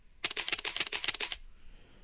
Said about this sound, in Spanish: Tomé una sucesión de 4 o 5 fotos, creo, con un quinceavo de segundo, que es una velocidad muy baja.